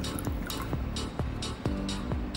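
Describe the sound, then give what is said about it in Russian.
A drink being poured, with liquid gurgling out in a series of short, repeated glugs at a steady rhythm over a constant background hum. “У тебя работа такая, наливать! Я наливаю. Вот и наливай! Наливаю.”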